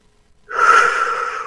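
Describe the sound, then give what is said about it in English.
A deep breath in during a guided meditation: one long, steady inhalation follows a brief silence and holds at an even, fairly loud level until the end. “Beautiful, nice deep breath”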